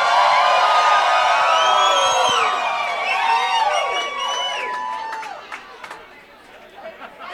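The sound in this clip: An audience cheers, whoops and whistles as a band is welcomed back to the stage at a valley music event. The crowd noise is loud at first, then thins and fades over several seconds.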